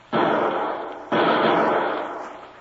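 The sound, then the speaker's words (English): Two gunshots fired from a lower window, wild firing during a standoff: loud, sharp blasts about a second apart, each followed by a long, fading rumbling tail. “Shots came from that lower window. Yeah, and he hasn't located us. He was firing wildly.”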